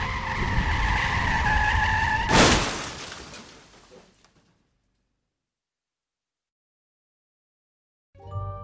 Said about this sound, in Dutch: En dan op een half uur rijden eigenlijk van haar eigen woonplaats, raakt ze met haar auto in een slip en crasht.